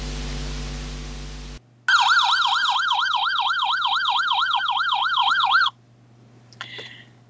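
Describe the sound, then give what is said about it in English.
An ambulance or fire-engine siren goes past with a fast, rapidly warbling wail. It holds steady and loud for several seconds, then cuts off abruptly. “How do you react when you hear that sound? I'll never forget that clip with Morecambe and Wise when Eric goes over to shut the curtains and an ambulance or fire engine goes past”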